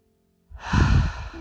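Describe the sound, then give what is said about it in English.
A single deep breath taken during a guided relaxation exercise: a long, breathy rush of air that swells and then eases off, heard alone with no talk. “Take a few more deep breaths here.”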